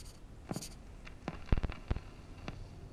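Pen scratching across paper while a letter is written, with several short, dry strokes spaced irregularly, a few sharper ones clustered near the middle. Quiet and alone, with no voices.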